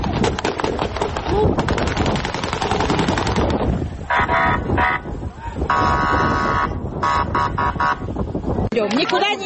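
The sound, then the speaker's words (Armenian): Gunshots fired into the air by police breaking up a street protest in the North Caucasus, rapid cracking bursts in the first part, set in loud, dense crowd noise that continues throughout. “Ջավապահները մարդկանց ցրելու համար նույնիսկ օդ են կրակել։”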